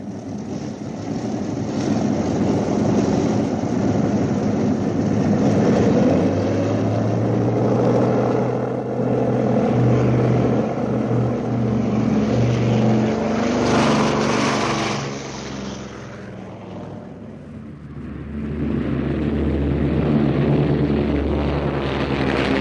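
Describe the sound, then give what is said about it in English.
A bomber's propeller engines run up before takeoff in a steady, loud, droning roar with a low hum beneath, easing briefly toward the end before swelling back to full power. “Radiator's open. Throttle's locked. Throttle's locked. We're prepared to take off.”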